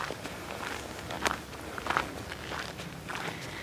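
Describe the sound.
Footsteps of someone hiking up forest paths: a series of soft, irregular steps on the ground, with a few firmer footfalls standing out against the quiet background and no voices.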